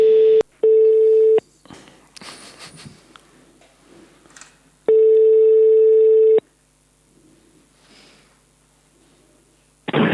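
Telephone ringing tones sound while a listener is being called back. Two tones come close together, the second longer, and a longer third tone follows after a quieter gap with faint handling noise. A loud burst of noise cuts in at the very end.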